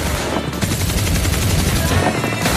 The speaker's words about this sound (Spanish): A ver, ¿quién ha sido? ¿Quién ha disparado con la ametralladora?